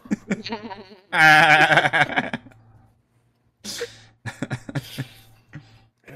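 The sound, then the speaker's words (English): Goats bleat as a pair of them come out of a tunnel: one loud, wavering, drawn-out bleat stands out, with shorter and fainter bleats before and after it over a low steady hum. “emerging from this tunnel, you see a pair of goats.”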